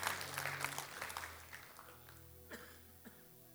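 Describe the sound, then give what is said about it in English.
A church audience claps hands during a morning service, a faint, dense patter of claps that gradually thins out, leaving a few isolated claps near the end. “Just clap your hands this morning.”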